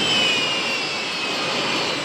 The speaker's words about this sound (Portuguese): Vamos pegar o avião agora.